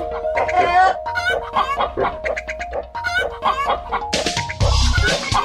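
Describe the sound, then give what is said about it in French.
Chickens clucking as they come when called, a flock giving many short, busy clucks and calls that overlap in a lively stream. “Et les poules, elles arrivent toutes. Ah ouais, ah ouais, elles arrivent”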